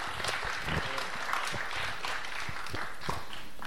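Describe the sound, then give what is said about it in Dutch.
Steady applause from a crowd at a church gathering, honoring a couple. Many hands clap in a dense, even wash of sound that keeps the same loudness from start to finish. “Nogmaals applaus voor Tjalling en Margriet.”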